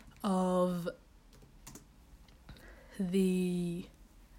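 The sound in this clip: Clicking keystrokes on a computer keyboard as someone pulls up a tennis tournament draw, soft rapid taps falling between two short stretches of talk.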